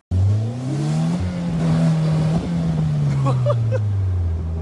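A car engine revs in a loud, continuous drone that climbs in pitch over the first second, holds, then slowly sinks across nearly five seconds.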